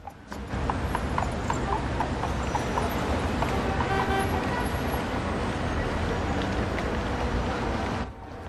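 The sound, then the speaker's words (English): Hooves of a police horse walking along a street make a steady, rhythmic clip-clop over a continuous wash of background traffic noise. “The policeman walks his horse along the street towards Mick.”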